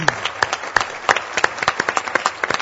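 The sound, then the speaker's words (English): Audience applause for a panel moderator at the close of a panel discussion: many sharp, distinct claps in an irregular rhythm, fairly loud, with no talk over them. “maybe you'll join me in a round of applause for him”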